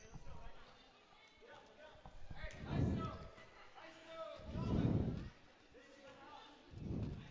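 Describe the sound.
A basketball bounces on a gym court during an eighth-grade game against Warsaw, giving a few deep, heavy thuds spaced a couple of seconds apart under continuous voices.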